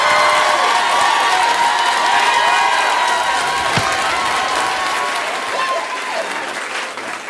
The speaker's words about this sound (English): make some noise for Josh Johnson